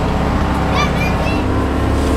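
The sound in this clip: A heavy truck engine of 220 horsepower pulls a load, giving a steady low rumble with a faint higher whine on top that continues unchanged throughout.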